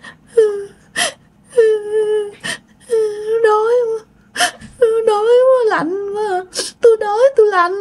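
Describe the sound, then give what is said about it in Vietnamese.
Eerie moaning and crying from a voice imitating a ghostly wail: a series of wavering, whimpering sobs with sharp gasping breaths between them, loud and alone. “Cái sau đó tự nhiên bạn nghe tiếng rên, tiếng khóc.”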